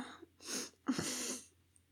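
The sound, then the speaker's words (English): A disgusting snort comes in two harsh, wet, noisy bursts: a shorter one first, then a longer, throatier one. A faint click follows near the end. “A disgusting snort.”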